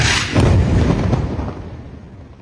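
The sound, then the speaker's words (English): An Israeli missile strike hits a residential building in the Nasser neighborhood: one loud, broad boom bursts out, then a deep rumble slowly fades away. “Al Jazeera shared this video of an Israeli missile strike on a residential building in the Nasser neighborhood on September 12th.”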